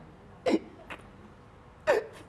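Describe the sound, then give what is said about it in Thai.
A child hiccuping: a few short, sharp hiccups, two loud ones with a fainter one between, each a brief breathy catch set against quiet background noise. “เริ่มสะอึกแล้วแสดงว่าชักสาลงแล้ว”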